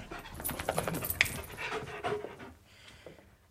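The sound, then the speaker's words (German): A dog panting on a sofa in a house: soft, rapid, steady breaths that go quieter toward the end. “Rufen Sie den Hund zurück. Der hat auf dem Sofa nichts verloren.”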